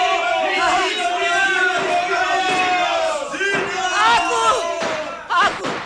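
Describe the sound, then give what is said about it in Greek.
A crowd cheers the election of Kapodistrias as governor, with many voices shouting and hailing together in loud, overlapping celebratory cries that rise and fall in waves. “Ο Καποδίστρης, τον ψήφισαν. Ψήφισαν κυβερνήτη και πανηγυρίζουν αδερφομένοι όλοι.”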